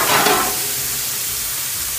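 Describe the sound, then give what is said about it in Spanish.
A thin slice of quality meat searing in a hot pan gives a loud, steady, hissing sizzle that barely changes over the short stretch. “Ok, esto es una selladita por un lado y por el otro. Y se acabó, porque está tan finito que se cocina súper rápido.”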